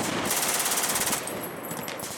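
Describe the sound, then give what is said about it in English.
Rapid automatic gunfire from a video game rattles out in dense, continuous bursts that stay loud for the whole stretch, with no talk over it. “Still shooting, guys.”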